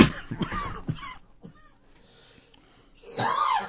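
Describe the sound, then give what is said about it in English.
A man with a bad cough gives a few harsh, raspy coughs at the start, then a quiet pause, then a longer, louder hacking cough at the end. “You're supposed to talk when I cough. I'm sorry.”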